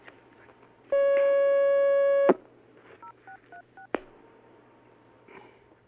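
Telephone dialing tones as a call is put through to a phone-in question line: a long steady tone, then four short evenly spaced keypad beeps and a few clicks, with no talk.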